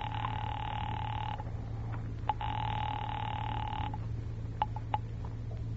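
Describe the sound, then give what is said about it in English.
A telephone rings as a call is put through to a police department, sounding two long, steady ring bursts with a pause between them, followed by a few faint clicks. “Ringing the police department.”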